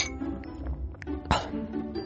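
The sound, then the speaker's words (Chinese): Glasses clink together once in a toast, a single bright, sharp tap over low, murmuring background noise. “来干杯。 干杯。”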